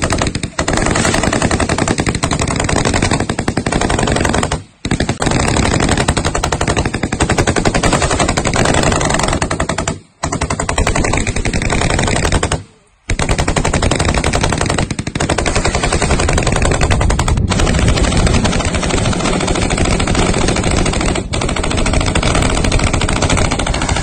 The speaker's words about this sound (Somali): Muuqaal lagu faafiyay mareegaha internetka ayaana muujinayay dhinacyada oo rasaas isdhaafsanaya.